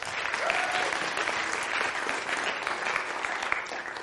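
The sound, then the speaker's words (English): An audience applauds to welcome a speaker at a gathering: steady, sustained clapping from many hands that holds an even level throughout. “Let's put your hands together.”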